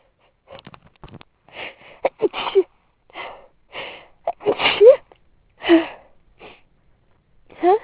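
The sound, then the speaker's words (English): Sniffs, wheezy gasps and stifled sneezes come from a person trying to hold back sneezing in an elevator: a series of short, loud, breathy bursts with brief silences between them. “I don't really want to start sneezing in an elevator, so I try and hold them back, but the tickle just gets stronger.”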